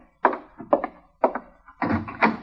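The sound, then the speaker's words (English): Thumping and rattling as someone works at a door from outside, in a few short, uneven bursts of knocks and jostles, the last one longer and busier. “that ain't the wind. There's somebody working the door that way.”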